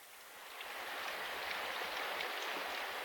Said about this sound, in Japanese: 信じらんない、なんで雨なのよ。